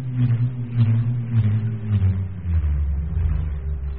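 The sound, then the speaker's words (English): A bull roarer, a piece of wood tied to a rope and spun round the head, makes a continuous low whooping drone that throbs in steady pulses and sinks slightly in pitch as it goes on. “bull roarers. A piece of wood tied to a rope spun round the head that makes this strange whooping sound.”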